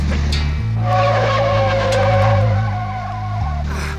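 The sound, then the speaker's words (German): A Volvo car skids under emergency braking, its tires letting out a loud, sustained squeal for about three seconds over a low engine drone. “Der Volvo gerät ins Schleudern. Ah. Er macht eine Vollbremsung.”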